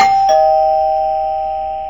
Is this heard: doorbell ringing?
yes